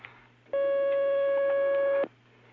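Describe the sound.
A telephone line tone for an incoming call sounds once as a steady electronic beep of unchanging pitch lasting about a second and a half, over a faint low hum.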